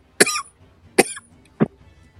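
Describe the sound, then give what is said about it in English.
A person coughs three times, two harsh, sharp bursts followed by a shorter, lower third cough, each separated by brief quiet. “and I'm just coughing up a storm here.”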